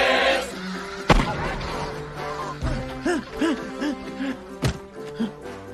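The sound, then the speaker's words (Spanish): Gunshots from Gaston's hunting rifle: three sharp, loud cracks spaced apart over music with bright, bouncing tonal notes. “¡No fallaste ni un tiro, Gastón! ¡Eres el mejor cazador del mundo!”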